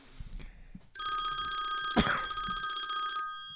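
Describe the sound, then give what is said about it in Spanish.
A telephone rings with a loud, continuous bell tone lasting about two seconds, after a second of faint low noises, with a single knock partway through the ring. “A ver, no sé quién esté llamando, pero seas quien seas, termina mi oración.”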